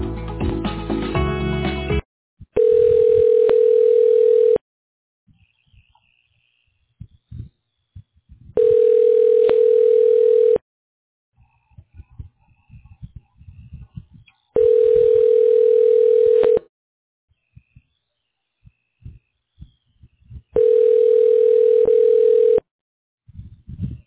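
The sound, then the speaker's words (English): Telephone ringback tone sounds while a business call is being transferred: four steady, mid-pitched tones, each about two seconds long, separated by even silent gaps, after a brief burst of noise at the start. “Okay, I'm going to transfer you now.”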